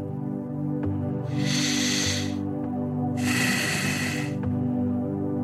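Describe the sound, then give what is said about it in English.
A deep breath in and then out: two soft, airy hisses of about a second each, with a short gap between them, over a steady bed of sustained music tones. “Take a deep breath. Inhale and exhale.”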